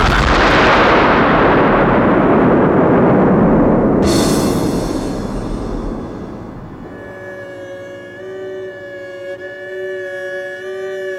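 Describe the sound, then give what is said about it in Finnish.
A homemade gunpowder bomb explodes in a loud, roaring blast that decays slowly into a long rumble, with a sharp crackling burst partway through and a faint ringing tone as it fades. “Onneksi veljeni tekemän pommin ruuti oli kosteaa.”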